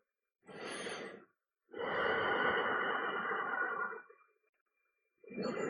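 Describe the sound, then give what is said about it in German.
Slow breathing in and out during a guided meditation: a short inhale, a pause, a long steady exhale of about two seconds, and then the next breath beginning. The breaths are soft, airy and alone, with silence between them. “Ich atme ein und aus.”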